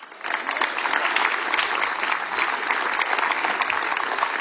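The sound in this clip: Applause from the audience at a chanson festival: dense, steady clapping that begins after a brief quiet moment and holds at an even, full level to the end.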